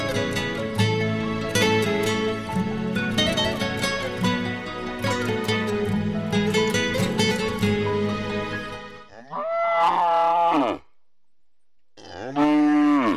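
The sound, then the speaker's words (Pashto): A farm cow bellows for its hay, two long, loud, low moos near the end, the second cut short, after a stretch of busy harmonic sound. “او ښځې دا غوا ته مو واښه ور اچولې که نه څنګه رمباړې وهي؟”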